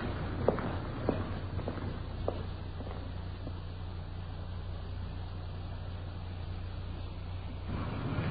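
Footsteps walk up the path to a small English-style cottage. A few soft, evenly spaced steps are heard early on, then they fade into a steady low rumble.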